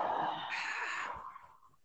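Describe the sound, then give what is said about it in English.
A long, forceful breath blown out through the mouth: a breathy rush of air, loud at first, that thins out and fades away after about a second and a half. “Let's take a big breath in. And blow out through your mouth as far as you can.”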